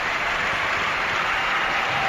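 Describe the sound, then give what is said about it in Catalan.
Stadium crowd ovation at a football match: a broad, steady roar of applause and crowd noise, loud and unbroken throughout. “Mira, mira. Atenció a l'ovació.”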